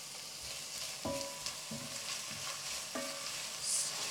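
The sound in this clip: Onions, ginger and garlic sizzle softly in a pan for a chickpea chana masala curry, a steady low hiss broken by a few scraping stirs.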